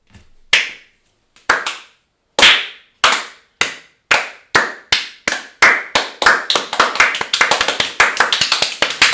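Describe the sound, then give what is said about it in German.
Clapping as an applause sound effect starts with a few slow, separate hand claps with gaps between them, then speeds up into quick, dense clapping that becomes almost continuous by the end. “Applaus, da kann man oh ja klatschen.”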